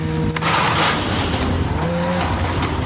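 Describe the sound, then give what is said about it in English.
A snowmobile engine runs steadily as the machine is started and driven down a ramp off a trailer in a parking lot. It gives a continuous, dense mechanical roar with little change throughout. “His ritual starts with towing his snowmobile to a parking lot. And then he starts his snow machine and drives it down a ramp off the trailer.”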